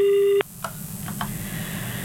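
A telephone busy tone after a call disconnects: one steady, buzzy tone lasting under half a second, cut off abruptly, then faint line hiss with a couple of soft clicks.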